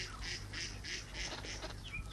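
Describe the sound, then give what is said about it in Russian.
A duck swimming on a pond in an animated cartoon gives a run of about five harsh, nasal squawks at a steady rhythm. A short, high chirp follows, all over a constant low background hiss. “Берег водоема. По водоему плывет утка.”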